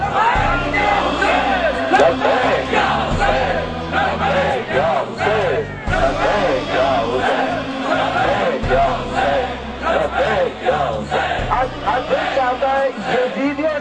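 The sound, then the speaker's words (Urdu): A large crowd chants slogans at the shrine of Imam Husayn, with women's voices prominent. The chanting is loud, continuous and rhythmic, in unison. “اس مجمع کو دیکھیں, اس کے اٹھے ہوئے ہاتھوں کو دیکھیں, ان بہنوں کے نعروں کو سنیں”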